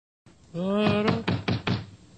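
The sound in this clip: Several quick knocks on a door in a children's audio story, loud, crisp raps in an even rhythm, with a brief tonal sound just before and overlapping the first strikes.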